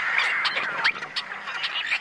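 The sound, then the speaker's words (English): Tricolored blackbirds calling together in a California marsh, a dense, harsh, snarling chorus of overlapping raspy calls that continues without a break. “what sounds like a snarling catfight? Are the combined voices of tricolored blackbirds in a California marsh.”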